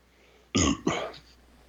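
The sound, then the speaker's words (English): A person burps during a casual chat about a video game: one loud, throaty burst that breaks briefly in the middle and then tails off, with no talk over it. “I'm all sorts of mess over here, dude. I'm burping.”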